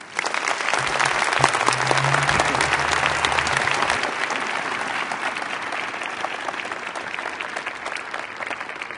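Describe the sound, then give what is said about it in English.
Warm applause from an audience greets a speaker at a university teaching event, a dense and sustained clapping that holds strong for several seconds and eases slightly toward the end. “Would you please join me in giving a warm welcome to Dr. Michael Wesch?”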